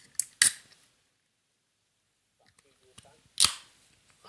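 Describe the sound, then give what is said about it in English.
A beer is opened with a few sharp cracking snaps, each followed by a brief hiss, separated by long quiet gaps. Faint voice sounds come between them. “Just got the beer open, that's all.”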